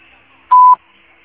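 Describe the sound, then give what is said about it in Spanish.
A single electronic beep from a mobile carrier's voicemail system marks the start of recording. It is a steady, mid-pitched tone lasting about a quarter second, loud and alone against faint line hiss. “Si desea, deje su mensaje en la casilla de voz. En el tono, grabe su mensaje.”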